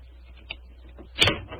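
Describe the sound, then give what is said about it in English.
A skeleton key turns in a door lock, giving a small soft click followed by a louder, sharp metallic clack near the end of a brief, quiet moment. “Is the door locked? Yes, but I think the skeleton key will do the trick.”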